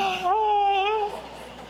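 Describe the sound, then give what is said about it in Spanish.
A wailing cry with a scream rings out as one sustained, wavering tonal howl lasting under a second, then drops away and fades into quiet. “llanto con grito como ese que acaba de sonar”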